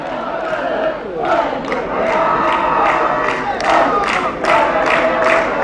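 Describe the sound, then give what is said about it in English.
Football fans roar in a stadium early in a match with Real Ab pressing forward. The crowd din is dense and sustained, with several louder swells of cheering and shouting. “Good to hear the fans with good voice as well.”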